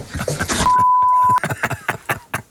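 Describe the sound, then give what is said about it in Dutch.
A single steady censor bleep of under a second covers swearing in a radio talk segment, with a man's speech running before and after it. “We hebben in 11 seconden 3 vloeken weggepiept.”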